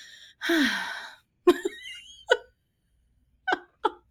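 A deep, audible intake of breath, airy and gasp-like with a slight voiced edge, followed by a few short, soft vocal sounds separated by pauses.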